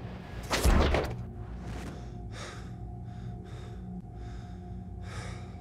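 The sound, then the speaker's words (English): A spaceship airlock opening: one brief, loud, breathy whoosh near the start over a steady low hum, followed by a few fainter, softer hissing puffs. “Are you sure you'd like to open this airlock? Now opening airlock.”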